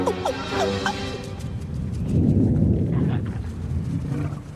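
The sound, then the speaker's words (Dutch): Thunder rolls as a deep, low rumble that swells through the middle and then slowly fades, after a few brief higher calls at the start. “Het was vast alleen maar onweer.”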